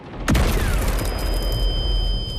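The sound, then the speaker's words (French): A nearby explosion in a country at war hits with a sudden, sharp burst, then leaves a loud, steady roar that lasts to the end. “c'est le bruit de la peur. Une explosion à proximité”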